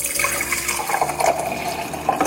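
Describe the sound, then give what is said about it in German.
Aperol spritz with crushed ice, sparkling wine and orange juice poured into a glass: a steady splashing, gurgling flow of liquid and ice that continues without a break. “So schaut das Ganze nach dem Mixen aus. Einmal abfüllen.”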